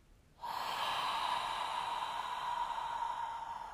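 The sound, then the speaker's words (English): A long, deep inhale drawn in during a guided relaxation breathing exercise: a steady, airy rush of breath that starts abruptly and holds for over three seconds at an even, fairly loud level. “One more time with me. Deep breath in. Consciously relax everything.”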